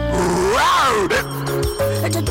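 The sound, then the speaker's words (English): An unhappy, scrawny lion gives a long, groaning roar that swells up in pitch and sinks back down, followed by lower, rumbling moans. “That is the sound of an extremely unhappy, tawny, scrawny lion.”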